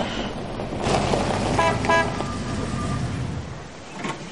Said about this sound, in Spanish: Un coche blanco se detiene frente a la casa de Hannah.